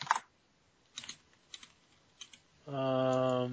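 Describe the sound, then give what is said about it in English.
Keys on a computer keyboard are tapped a few times with short pauses between strokes, then a sustained electronic tone sounds at the end. “Could you type that out?”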